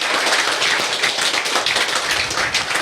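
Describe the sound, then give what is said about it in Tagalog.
Church audience clapping hands in praise during a worship service, a dense, steady patter of many hands overlapping into a continuous crackling roar, even in loudness with no voices standing out. “Come on, keep clapping your hands to Jesus.”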